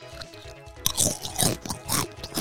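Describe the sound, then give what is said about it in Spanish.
Chips eaten from a bag: several loud, crisp crunching bites in an uneven rhythm, each a short burst of dry crackle, with no talking. “En el episodio de hoy me estoy comiendo aquí una bolsa de chips”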